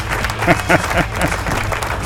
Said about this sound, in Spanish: Aplauso, aplauso. Pero ¿qué pasa? Los aplausos,